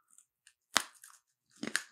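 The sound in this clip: Crunchy chewing of a durian cookie: a few faint clicks, then two loud, crisp bursts of crunching and mashing with quiet gaps between them.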